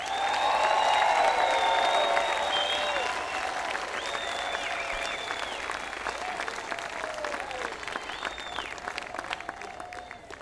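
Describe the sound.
Applause and some cheering from a concert crowd as the upright bass player of a band is introduced. Many hands clap loudly at first, then the sound gradually thins and fades.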